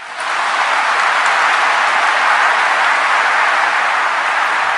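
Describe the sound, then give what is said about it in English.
Applause and a standing ovation from mourners at a funeral: a dense, loud, unbroken roar of clapping that starts abruptly and holds at a steady level to the end. “applause, a standing ovation even from mourners at a funeral. That is not something you see every day.”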